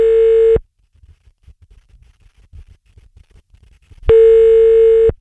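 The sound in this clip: Telephone tone while calling a number: two long, steady buzzing tones, one at the start and one near the end, separated by a quiet stretch of faint, soft clicks.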